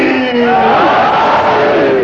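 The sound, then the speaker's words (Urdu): A crowd at a religious gathering shouts the slogan Naara-e-Haidari, a loud, sustained unison cry of many voices with a slight wavering pitch, filling the whole moment. “ایک بزرگ نے اتنی دور سے کھڑے ہو کر نعرہ حیدری لگایا ہے تاکہ نوجوانوں کو کوئی جوش آئے.”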